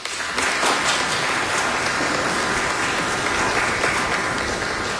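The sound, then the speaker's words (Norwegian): A church audience applauds two confirmands serving as acolytes at a Pentecost service. The clapping is dense and steady, holding at an even, loud level throughout without a break. “Vi gir dem en applaus.”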